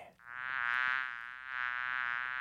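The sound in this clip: A small insect buzzes close to the ear in a small room: a steady, thin, high whine that fades briefly, then swells again.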